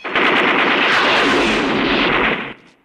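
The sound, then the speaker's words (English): Sustained automatic gunfire from a film, shooting out a savings bank's windows and a junction box, forms one dense, loud, unbroken roar for about two and a half seconds before cutting off abruptly. “He shatters the windows of Mountain State Savings, then fires at another junction box.”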